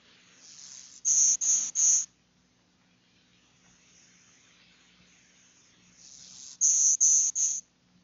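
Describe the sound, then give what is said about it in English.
Golden-winged warbler song, heard twice: each phrase is a thin, high, buzzy opening note followed by three loud, insect-like buzzes in steady rhythm, with a quiet gap between the two songs. “Golden-winged warbler.”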